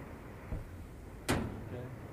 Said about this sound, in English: Here, slide that. That's too loud. That's a van door. That's way too loud.